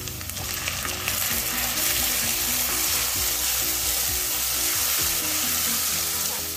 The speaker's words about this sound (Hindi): ये अच्छी तरह से प्याज भून गया है इसमें तेल छोड़ दिया प्याज में अब इसमें टमाटर डाल दें